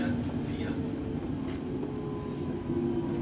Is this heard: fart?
no